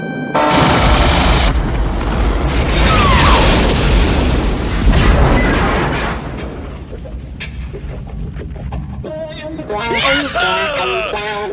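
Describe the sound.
Gunfire and heavy booms in a dubbed action film scene, loud dense bursts of shots and blasts for about six seconds, then quieter with voices talking.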